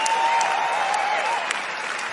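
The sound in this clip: Audience applause for a keyboard player at a live music show: a dense patter of clapping lasting about two seconds over a faint, held tone.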